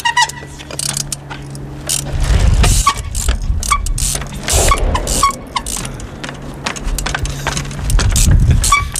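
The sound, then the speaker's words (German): A bicycle clatters and bumps as it is ridden and climbed over concrete blocks, with irregular knocks, thuds and metallic rattles and two heavier rumbling bursts, and no talk. “ist für mich mal mit seinem Rad auf ein paar dieser Betonelemente rumgeklettert”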